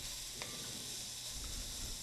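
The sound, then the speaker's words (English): White wine sizzles as it hits a hot pan of carrots, deglazing browned bits for a venison osso buco sauce. The hiss is steady and even throughout, with a couple of faint clicks and no talking. “white wine. Hitting that hot surface will release any brown bits on the bottom of this. So this is going to take 6-8 minutes or so to kind of cook up”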